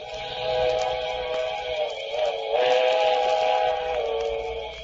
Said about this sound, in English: that was it. The midnight train. I could see its bright headlight flickering as it approached.